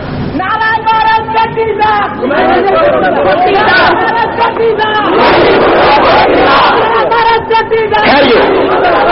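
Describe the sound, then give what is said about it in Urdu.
A crowd at an Urdu-speaking gathering shouts slogans in reply to a leader. A single raised voice calls out, and many voices answer in a loud, roaring chant. The exchange repeats several times. “حضرات بات سنیں, نعرہ ایک لگے گا, ایک ایک نعرہ لگا ہے, دوسرے ہاتھ جا کر جواب دے, سب نعروں کو لگ جاتے ہیں.”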